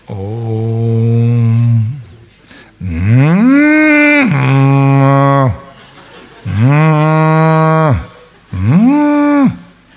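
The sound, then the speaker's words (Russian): A cow moos four times. Each moo is long, low and loud, sliding up at the start, then holding a steady droning tone before cutting off. “that's exactly what a cow sounds like. Так коровы мычат.”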